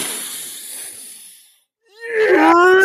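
One long, deep breath in, a hissing inhale that tapers away, then after a short pause a loud, voiced sigh.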